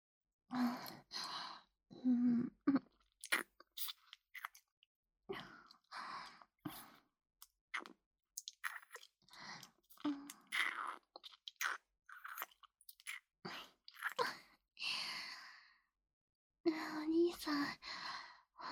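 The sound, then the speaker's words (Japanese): Wet French kissing sounds: many intermittent, close smacking and slurping mouth noises with soft breathy sighs between them, in short irregular bursts. “唾液交換したいからベロチューしようよ。”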